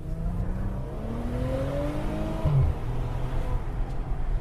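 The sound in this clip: A car with paddle shifters pulling away in drive, its engine hum climbing steadily in pitch over a couple of seconds above a constant low rumble.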